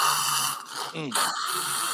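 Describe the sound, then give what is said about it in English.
A human voice imitates snoring with one short, rough, throaty snort in the middle, set against a steady hiss. “that's what makes you snore”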